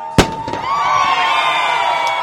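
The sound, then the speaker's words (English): A single sharp cannon blast marks the first-place finishers of an ocean sailing race arriving in port. It is followed by sustained loud crowd noise and a steady high tone. “Cannon fire signaled the first place finishers.”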